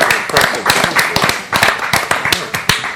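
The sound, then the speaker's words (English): A live studio audience at a comedy show applauds, with dense, steady hand clapping of many sharp overlapping claps that keeps an even, fairly loud level for about three seconds. “Live studio audience, thank you for being live studio audience. Give yourselves a hand.”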